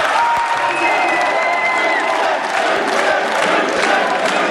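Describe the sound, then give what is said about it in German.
At Munich's Old Town Hall, a crowd applauds. Dense, steady clapping mixes with cheering voices at an even, loud level throughout. “Und so klingt es gerade im Alten Rathaus.”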